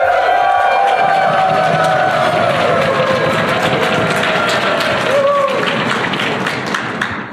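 Conference audience at Prairie DevCon in Calgary cheering and clapping: a loud, dense, continuous crowd roar with scattered whoops, easing slightly toward the end.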